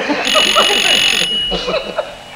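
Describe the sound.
A telephone rings in one steady electronic burst of about a second, mixed with people talking, before the speech carries on alone.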